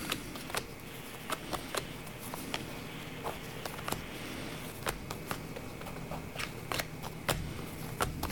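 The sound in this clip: Playing cards drawn and laid out during a card reading make many soft, scattered taps, flicks and slides at an uneven rhythm, faint and without talking.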